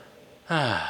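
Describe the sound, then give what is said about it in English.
A deep breath let out as a loud, voiced sigh with falling pitch, after a faint, soft lead-in. “Nice deep breath after that one.”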